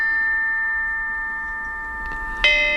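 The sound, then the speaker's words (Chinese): Ancient bronze chime bells (bianzhong) being played: steady ringing metallic tones hang throughout, with a faint strike near the end followed by one louder, brighter bell hit. “编钟真是太好听了”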